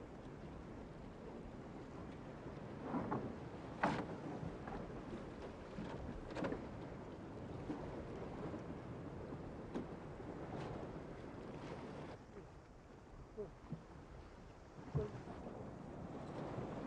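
Wind and waves of a stormy sea, heard from a boat, make a steady roaring rush. Occasional thumps and gusts break through, and the roar eases slightly near the end.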